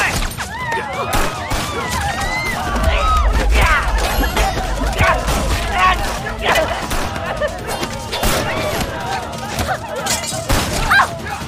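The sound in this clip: Gunfire ordered by an official against a crowd of unruly commoners: several sharp shots cut through loud, chaotic shouting and yelling voices and general commotion.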